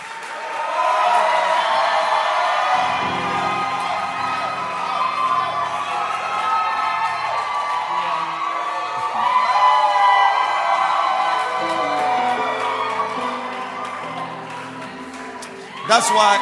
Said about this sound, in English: Thank you and clap your hands for our bishop. Let's welcome Bishop Rory.